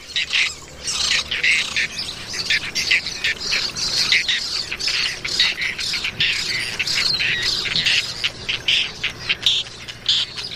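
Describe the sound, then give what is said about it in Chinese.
Hungry nestlings squawk nonstop in a huge breeding colony in Doñana National Park, a dense chorus of many harsh, raspy begging calls overlapping in quick bursts as the chicks compete for food. “在这里基本不谈兄弟情谊，雏鸟们毫不退缩地争夺着每一块食物。”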